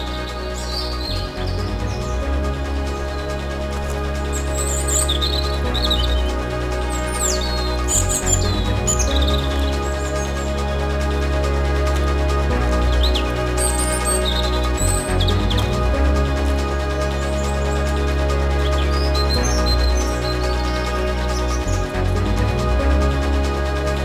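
Birds chirp outdoors in many short, scattered high calls over a steady low hum, continuing for the whole stretch.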